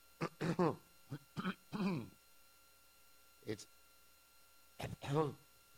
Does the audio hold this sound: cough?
yes